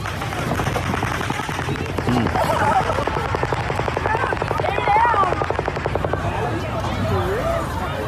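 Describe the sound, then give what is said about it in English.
Rapid automatic gunfire rattles in long, fast, steady bursts, with voices and a murmur of crowd noise throughout. “So you can hear the machine gun fire, the rapid fire. I don't know if it is a machine gun.”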